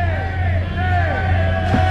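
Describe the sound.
A baseball crowd yells in protest at a game after a run of walks and hit batters, a loud, continuous roar of many voices over a steady low hum.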